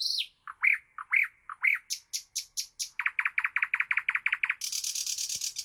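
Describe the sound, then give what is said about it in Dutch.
Bird song of clear, high notes: a few upturned whistles give way to quick repeated chirps, then a fast run of clipped notes and a final high, buzzy trill, heard alone. “Dus eerst een stukje vogelgeluid.”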